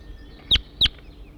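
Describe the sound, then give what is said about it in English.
A wild bird flying overhead gives two short, sharp, high chirps about a third of a second apart over a quiet, low background. “Now he's flying over near 4-3. Start recording the wild bird now in song.”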